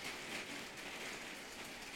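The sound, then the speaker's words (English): Hail striking a window makes a steady, dense, faint patter throughout, with no voices. “I apologize for anyone listening that is just hearing hail against my window, but that's just going to be a thing, I guess, now.”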